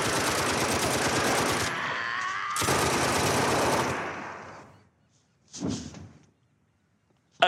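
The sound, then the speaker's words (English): Long, dense bursts of rapid gunfire, two sustained volleys back to back, then fading, followed by a short isolated report and one sharp final crack. “Okay, that's a lot of bullets. It keeps going. It's a lot of bullets.”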